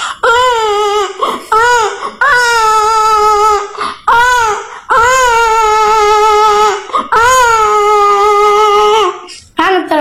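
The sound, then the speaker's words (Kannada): A voice imitates a baby crying at night: a series of loud, drawn-out wailing cries, each broken by short catches of breath and brief pauses. “ಆನಂತರ ಅಲ್ಲೇ ನಮ್ಮ ಅಕ್ಕನ ಮಗು ರಾತ್ರಿ ಅಳುತ್ತಿತ್ತು.”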